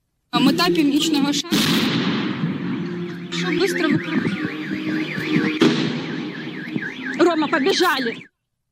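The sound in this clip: An RPG rocket fired at a fun fair gives a sharp blast followed by a sustained rushing roar, with further loud bangs, a warbling siren-like wail and voices throughout.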